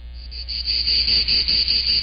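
Crickets chirping in a high, shrill trill that pulses in short repeated bursts, steady and fairly loud, over a constant low hum.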